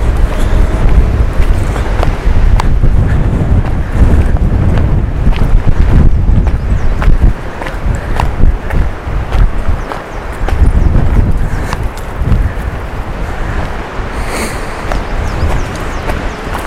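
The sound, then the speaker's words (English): Strong wind blowing outdoors, a loud, gusty low roar buffeting the microphone, surging and easing in waves with no voices heard. “Boy, oh boy, this wind's really picked up.”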